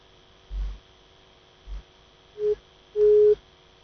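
A telephone busy tone follows a caller's line being cut off. Two short, steady beeps at one pitch, the second longer than the first, sound faintly over a constant low hum.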